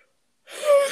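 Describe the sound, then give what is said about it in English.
A person yawns: after a silent first half, a loud, breathy, drawn-out exhalation starts abruptly with a faint voiced tone inside it and swells to its peak near the end. “Stop yawning. I can't help it.”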